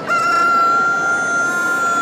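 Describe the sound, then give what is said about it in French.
A rooster crows and chickens call on a poultry farm, one loud, sustained, steady call filling the whole clip with no pause. “nous sommes agriculteurs et nous élevons nos poules”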